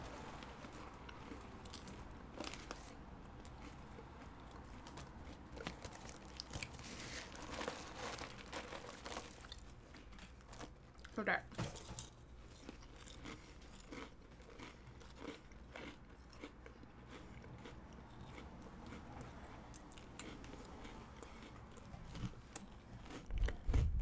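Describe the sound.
Goldfish crackers being crunched and chewed for ASMR: sustained close, crisp crunching and munching with crinkly rustles, steady and fairly quiet throughout, without talk.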